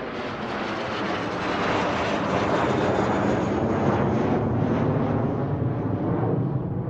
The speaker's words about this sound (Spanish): se subió a su avión privado